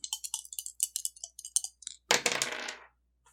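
Dice rolled in a tabletop role-playing game: many quick, light clicks as they rattle, then a dense clattering burst as they tumble and settle, followed by quiet.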